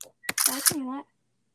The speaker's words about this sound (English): I don't know why, but I love that screenshot noise. You can hear it?